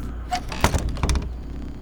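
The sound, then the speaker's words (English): A small door being opened: two dull, knocking thumps, the second about half a second after the first, over a low steady hum. “Why don't I open this small little door on the left? Open the door.”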